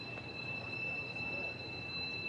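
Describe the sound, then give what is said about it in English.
Faint, steady screech of train wheels heard during a baseball game, a continuous high-pitched whine holding two sustained tones over low background rumble. “Now plenty of screeching and the train.”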